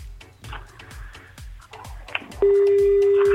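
A telephone is dialed to reach someone: a short keypad beep is followed by a loud, sustained steady tone, over a soft rhythmic low pulsing in the background.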